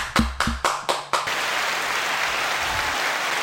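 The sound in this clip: An applause sound effect opens with five heavy, evenly spaced thumps, then swells into a loud, steady wash of dense clapping that fills the rest.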